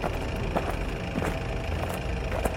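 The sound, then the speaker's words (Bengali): A car engine idles with a steady low rumble, alone with no voices, over a constant hiss with a few faint ticks. “শব্দ বলতে শুধু গাড়ির ইঞ্জিনটা গড়গড় করছে”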